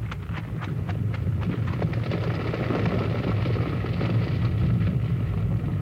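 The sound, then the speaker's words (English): An avalanche of rock roars down a mountainside onto a mine: a continuous, heavy rumble with dense clattering impacts of tumbling stone, staying loud and steady throughout with no voices. “we got to get away from here before that avalanche comes down. Looks like it's starting.”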